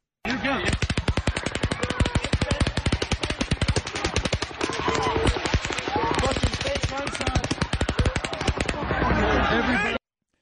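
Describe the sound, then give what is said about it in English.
Rapid automatic gunfire at a mass shooting during a concert: a long, unbroken run of fast, sharp cracks lasting about ten seconds before stopping abruptly. “A closer burst of um, gunfire”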